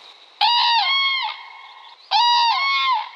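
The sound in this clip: Two loud trumpeting calls from a pair of cranes flying behind deciduous trees, each a rich, harmonic, slightly wavering honk lasting about a second, separated by a short gap.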